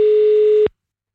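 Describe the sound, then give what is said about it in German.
A failed telephone call attempt gives a single flat, mid-pitched tone lasting under a second, then cuts to silence. “Ich kann anscheinend nicht anrufen. Du hast wahrscheinlich eine Sperre drin für anonyme Anrufe.”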